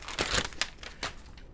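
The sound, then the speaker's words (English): Paper crinkling and rustling as a single piece is handled: a few short, dry, crackly bursts over a second and a half, fairly faint, with no voices. “Look at this piece of paper.”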